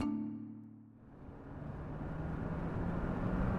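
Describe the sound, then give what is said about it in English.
A racing green Aston Martin zooms along a highway, its engine roar building from near quiet into a loud, steady rumble that carries to the end. “Martin Davis zooms along the highway in his racing green Aston Martin.”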